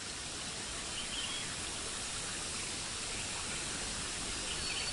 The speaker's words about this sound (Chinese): 流水的声音包围住你，